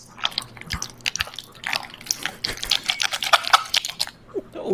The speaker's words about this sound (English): Oh shit, that's just wet. What is it? Macaroni. Look at him. Macaroni in the pot.